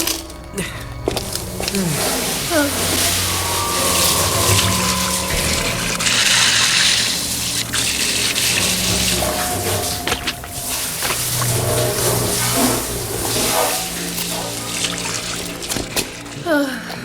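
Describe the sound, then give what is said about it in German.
Running water rushes steadily as leftover punch is flushed down a drain, a continuous loud wash with small knocks and clatters along the way. “So, jetzt noch den Rest der Bowle in den Abfluss spülen und fertig ist die Lauge.”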